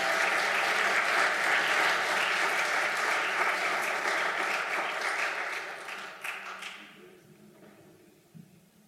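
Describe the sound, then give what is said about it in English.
A church audience claps after a song during a worship service. The applause is loud and dense at first, then thins out and fades, with a few scattered claps at the end. “Give the Lord a good clap offering, would you do it?”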